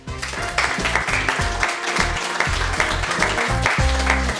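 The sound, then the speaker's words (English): Studio audience applause welcoming a guest, a continuous wash of clapping that stays fairly even throughout the short stretch. “So, rapturous welcome there, Greg.”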